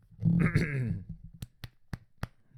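Throat clearing: a rough, harmonic rasp lasting under a second, followed by four sharp, evenly spaced clicks.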